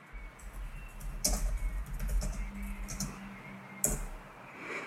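Typing on a computer keyboard produces a run of quick, light key clicks with a couple of sharper, louder taps, with no talking.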